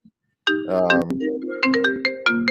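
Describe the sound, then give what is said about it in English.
A mobile phone ringtone plays a familiar melodic tune: a loud run of many bright, ringing notes with clear overtones, alone after a tiny faint blip at the start. “that would be your phone? That'd be my phone. I'll decline it there. It's a familiar tune.”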